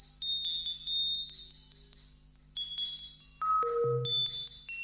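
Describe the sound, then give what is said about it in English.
Computer sonification of live social media messages plays as clean electronic pings and sustained tones that step between high pitches, with a brief drop to a lower note near the end, over a faint steady drone. “Strip away all the text and voices, and this is the sound of Twitter, as created by a young student at Bournemouth University.”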